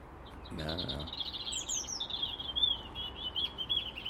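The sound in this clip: Small bird singing high in a tree about 60 feet up, a continuous run of high, thin chirps and trills that is fairly faint over steady background hiss.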